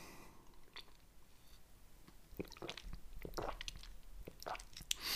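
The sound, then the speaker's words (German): Someone takes a sip of a drink: faint, wet mouth sounds with a few soft slurps, swallows and small clicks, quiet and with no talk. “Jetzt nehme ich nochmal einen Schluck.”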